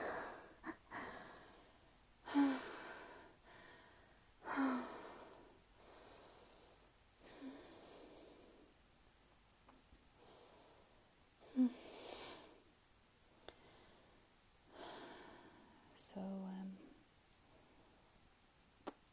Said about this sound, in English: Now just listening to each other breathe